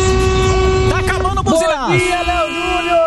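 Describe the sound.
Vehicle horn blasts during a horn-honking session, loud harmonic tones that waver and bend in pitch, with a voice talking over them.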